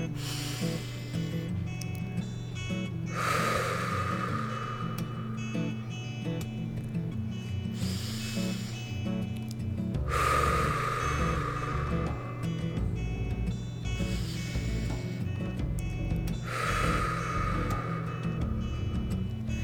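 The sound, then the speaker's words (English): Deep breaths in and out, taken slowly at the close of a calm, reflective session: a few soft, airy whooshes rise and fade at even intervals over a low, steady drone. “And I just want to end this with taking a deep breath.”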